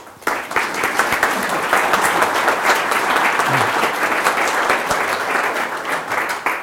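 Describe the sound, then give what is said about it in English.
An audience breaks into applause to welcome a speaker on stage. The clapping starts abruptly and stays dense and steady for several seconds. “So I'd like you to put your hands together and welcome Tony Hodgson.”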